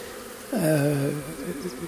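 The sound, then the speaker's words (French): Honeybees buzz in front of a hive as they come and go carrying pollen: a single droning buzz lasting about half a second, its pitch dipping slightly, over a faint steady background hum. “il y a une grande quantité d'abeilles qui est devant la ruche, qui va et qui vient, qui sort de la ruche, qui rentre, qui rapporte du pollen.”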